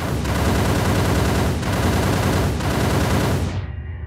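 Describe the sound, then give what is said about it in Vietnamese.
A burst of automatic gunfire is sprayed at something hiding behind a rock. The shots come as a dense, loud, unbroken stream that stops abruptly just before the end. “tôi bóp cò quét một chập vào cái thứ nấp sau tảng đá”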